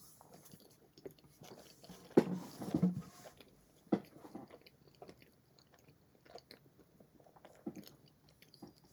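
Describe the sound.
Crunchy chewing of bread topped with a thick cheese slice and snack pepper: irregular, fairly faint bites and munching, with a few sharper crunches clustered in the middle, alone without talk.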